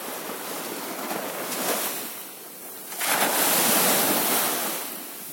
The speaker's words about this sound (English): The sound of the waves brushing against the shore carries a lot of meanings to me.